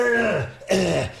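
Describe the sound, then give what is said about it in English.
Throat clearing by a person at a microphone: two harsh, voiced rasps, each sliding downward in pitch, separated by a short pause. “trying to clear my throat and it's, terrible”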